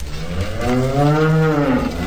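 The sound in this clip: A cow being called toward the farm pens gives one long, drawn-out moo, low and rich with harmonics, its pitch swelling slightly and easing back as it holds steady and loud throughout with no other sounds.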